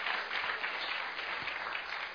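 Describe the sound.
Hands clapping in sustained applause, a dense, even wash of many claps at a moderate level that continues throughout without pause, with no voices on top.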